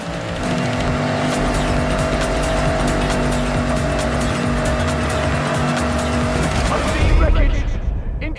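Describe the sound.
A race car engine roars in a Forza Horizon racing video game on a trophy track, a loud sustained drone with steady engine tones and tire squeal, swelling into a brief louder surge near the end.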